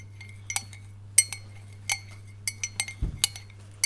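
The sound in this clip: A spoon clinks against a bowl while someone eats oat flakes in silence, many light, irregular metallic taps, some in quick pairs, over a low steady hum.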